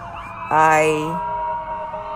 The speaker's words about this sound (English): Paramedics and ambulance are driving by.